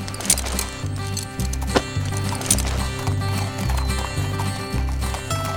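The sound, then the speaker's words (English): Horse hooves clip-clop as a rider travels on horseback, a steady rhythmic beat of hoofbeats that carries on throughout over a low, evenly pulsing background. “Saddle up, Fort Sumner's quite a ride from here.”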